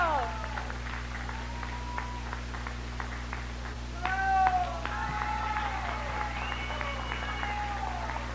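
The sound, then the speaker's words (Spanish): Applause and cheers for the third-place winner of a singer-songwriter contest, steady clapping under shouted voices, swelling briefly near the middle before settling back. “el tercer lugar, y pido un fuertísimo aplauso a Marsh. ¡Bravo! ¡Bravo!”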